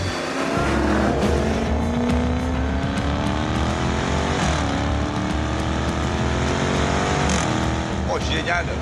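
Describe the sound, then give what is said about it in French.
A V8-engined XE saloon car is driven hard on the La Ferté-Gaucher race circuit with a manual gearbox. The loud engine note climbs steadily in pitch, drops at each gear change and climbs again. “c'est parti pour l'essai de cette XE sur le circuit de la Ferté-Gaucher.”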